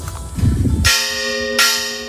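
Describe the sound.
Church bells rung in a bell tower: two loud, bright strikes roughly three-quarters of a second apart, each leaving a long sustained metallic hum with rich overtones, after a brief low rumbling.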